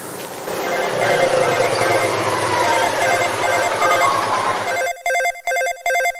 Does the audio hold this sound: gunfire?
no